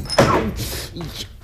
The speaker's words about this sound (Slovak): Keby si padol z lešenia, nečudujem sa, ale zo stoličky však...